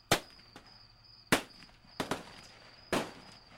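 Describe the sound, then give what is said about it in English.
Sharp gunshots ring out from a guard tower at a military base, fired toward a wood line. There are five loud cracks, each decaying quickly, with two in fast succession and one fainter pop early on. “Whoever was in the tower fired at the wood line.”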